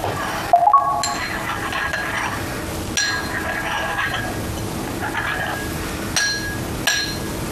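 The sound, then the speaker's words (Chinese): Water being stirred in a container just after pouring, with a utensil giving a few sharp clinks against the sides at irregular intervals. “水倒完了，搅拌一下。”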